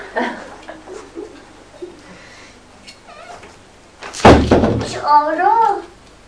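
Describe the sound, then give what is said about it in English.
A door is shut at home with one sharp, loud thud. Soft talk comes before it, and a higher voice, likely a child's, speaks right after. “Shut the door. Yes, the door shut, hasn't it? It's closed.”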